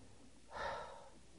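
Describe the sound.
A single heavy breath from someone pausing to catch their breath during a Bible reading: one soft, airy swell of breath rising and fading, faint and with no speech.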